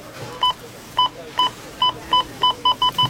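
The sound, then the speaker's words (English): Checkout scanner beeps at a store during a sale week, about nine sharp electronic tones that come faster toward the end, over steady background noise. “Rona Week when the checkout sounds like this”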